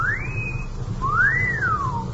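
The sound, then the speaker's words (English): A person whistles at girls at a city intersection: a faint two-part wolf whistle. A rising note holds briefly, then a second note climbs and slides back down over a low background rumble. “The nerve of that kid whistling at girls.”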